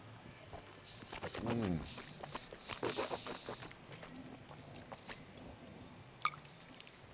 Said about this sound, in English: That now I'm going to taste it. The Jura single malt 18 year.